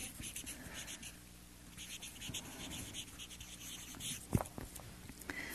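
Writing produces faint, continuous scratchy strokes with soft rustling, and one sharper knock stands out near the end.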